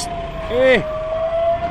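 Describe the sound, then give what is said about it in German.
An ambulance siren passing through a street protest in central Barcelona: one short wailing sweep that rises and falls, over a constant background roar and a steady hum. “Eine Ambulanz, ein Krankenwagen muss durch.”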